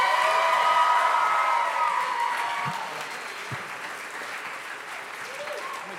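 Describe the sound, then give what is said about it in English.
An audience at a youth church service stands and applauds as a preacher is welcomed onto the platform, a steady dense clapping that eases slightly in loudness midway and then continues. “So would you do me a favor? Would you stand to your feet? Would you put your hands together?”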